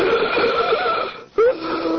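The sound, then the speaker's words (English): Wheezing breath during an asthma attack: strained, whistling inhalations and exhalations with a steady tonal wheeze, broken by a brief pause before a sharper, louder intake of breath. “This is the sound of an asthma attack.”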